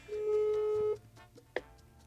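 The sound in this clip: A phone call dialed and left unanswered: one steady, mid-pitched ringback tone lasts just under a second, then a pause and a single sharp click.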